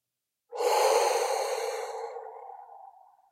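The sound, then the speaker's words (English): A single slow breath during a breathing exercise, a soft airy rush that starts suddenly and fades gradually over about three seconds, heard alone without any talk. “It is the inhale through the nose. Let's do it. Inhale. Hold for 4 seconds and exhale.”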